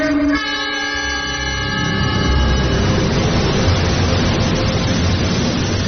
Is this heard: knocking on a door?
no